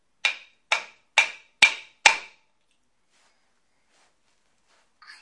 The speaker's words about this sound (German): Das ist der Hammer, ne? Da kannst du auf die Nägel drauf.